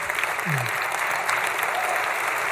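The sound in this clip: Warm applause from a church audience welcoming a speaker to share on a Sunday morning, a steady, even wash of many hands clapping that holds throughout the short moment.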